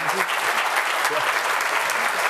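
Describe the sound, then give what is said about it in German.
Applause from an audience at a stage presentation at a trade fair, a continuous crackle of many hands clapping at steady strength, with a voice faintly audible beneath it. “Danke für den Applaus.”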